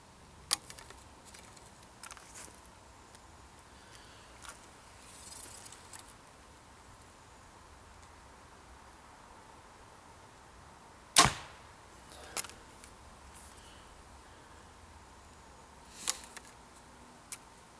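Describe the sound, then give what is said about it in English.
Arrows are shot at a target with a compound bow and a caliper release fired using back tension. A few sharp snaps and thwacks stand out against quiet background, with the loudest pair coming late. “All right, folks, I'm going to try to show you the proper way to fire one of these caliper releases using back tension. I'm going to take 2 shots here at the target and just show you what it looks like.”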